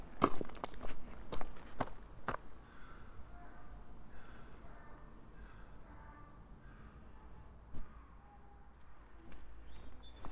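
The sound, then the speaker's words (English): Footsteps crunch along an uneven woodland path, several crisp steps close together at first, then quieter and more scattered over a soft, hushed background. “I'm walking through Hartford Wood. It's not the easiest of paths to walk on.”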